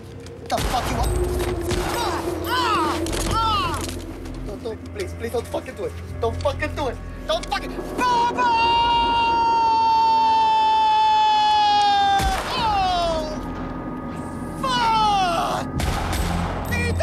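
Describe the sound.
Pistol gunshots in an audio drama, as a man fires on a group of rivals: a few sharp, loud bangs early on, followed by wailing, pitch-bending tones and voices.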